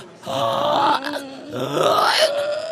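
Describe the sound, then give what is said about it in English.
A person imitates a pig's grunt on an inhale, making two drawn-out, rough, groaning vocal sounds with a short pause between them, moderately loud and with no other talk. “You can think of it sort of as like making a pig sound, like a... that kind of a thing.”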